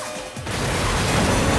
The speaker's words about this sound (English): The final black car somersaults into a restaurant, then flips over onto its roof.